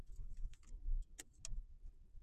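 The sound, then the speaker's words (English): A car seatbelt being handled makes faint metallic clinks and rustles inside a car. Two sharper clicks stand out in the middle over a low, rumbling background. “Ugh, this dang seatbelt. What's going on?”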